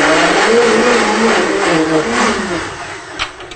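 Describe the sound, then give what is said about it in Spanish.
A blender liquefies tomatoes for a sauce. Its motor drones loud and steady with a buzzing hum, eases slightly toward the end, and gives a few small knocks near the close. “Se licúa el jitomate, yo lo sigo moviendo.”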